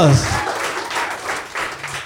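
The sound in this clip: A round of applause for a contestant in a quiz game, in uneven bursts of clapping that rise and dip at a moderate level, with a voice briefly heard at the start.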